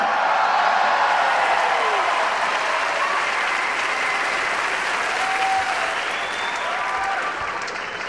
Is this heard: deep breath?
no